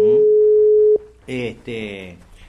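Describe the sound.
A telephone line rings as a radio station calls a guest. One steady, mid-pitched continuous tone holds for about a second, then a voice speaks over the line.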